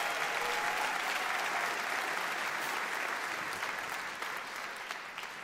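Audience applause welcoming a piano player to perform a tune at a live music show: a dense, sustained wash of clapping at a steady level that slowly thins and softens near the end.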